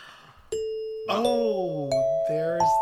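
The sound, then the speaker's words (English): A theatre's places-call chime rings out as a series of bright, bell-like notes struck one after another, each sustaining and overlapping the next in a layered, resonant ding-dong pattern. “there's the bell. There it is. It's time to go to places here”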